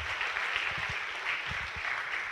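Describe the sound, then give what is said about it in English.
Applause from a church audience welcoming a guest speaker: a dense, even patter of many hands clapping steadily throughout, with no voices. “Put your hands together and let's welcome him as he comes and ministers God's word to us.”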